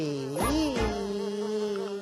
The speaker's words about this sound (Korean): 어, 파리 비행사님이다. 파리 비행사님, 여기요, 여기.